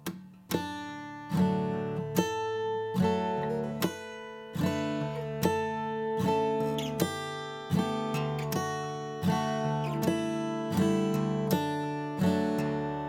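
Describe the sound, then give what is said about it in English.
Plucked strings in open D tuning play a harmonized melody as short chord chunks rather than single notes. Many evenly spaced chords ring out in a steady, moderate rhythm. “You can actually play a harmonized style, Twinkle Twinkle Little Star, again, with that same idea, to where instead of playing single notes, you're playing, we'll call them little chord chunks, and that would sound like this.”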